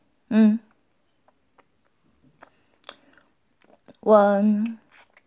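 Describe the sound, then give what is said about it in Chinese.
Chewing while eating breakfast: faint, scattered crunchy clicks and soft bites, framed by two brief voiced murmurs. “我还在吃早餐”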